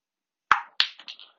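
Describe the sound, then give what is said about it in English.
A snooker shot with the ball potted into a pocket: two sharp, bright clicks about a third of a second apart, followed by a few softer, fading knocks as the ball settles, with no talk. “Oh, and with sublime shots like that, maybe me two doesn't need to rely on errors from his opponent. He's potted that.”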